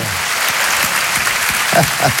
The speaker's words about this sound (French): C'est déjà un exploit, ça mérite une ovation.